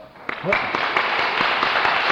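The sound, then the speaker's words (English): Applause from an audience, a short, steady round of dense clapping that holds at an even level for about two seconds, with a voice heard briefly near the start. “Let's stop and have just a little clap for Peter.”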